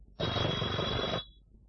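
A telephone bell rings once in a single loud, continuous burst of about a second, with a bright metallic rattle, then cuts off into quiet.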